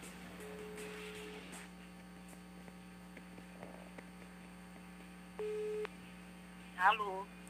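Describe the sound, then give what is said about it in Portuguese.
A call is being placed and a telephone line tone sounds once as a single steady beep, set against a constant loud electrical hum and faint line noise. “Muito bem, vamos fazer agora a ligação.”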